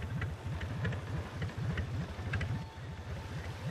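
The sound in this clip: Low, rapid chugging of a boat engine as the boat moves along a river at night, a steady regular pulse that stays faint throughout.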